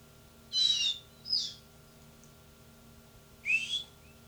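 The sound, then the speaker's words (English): A whistle is blown in three short, high toots, two close together and one after a pause, over a faint low hum. “My whistle. Stop on 379.”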